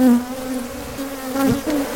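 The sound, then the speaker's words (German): Honeybees buzz around beehives hung along farm fields near the northwest border of Kruger National Park, a loud, steady droning hum that swells and dips slightly throughout, with no voices. “Neuerdings experimentiert die Gemeinde Palubeni an der Nordwestgrenze des Krüger-Nationalparks auch mit einer ganz anderen biologischen Abschreckung, nämlich mit Honigbienen.”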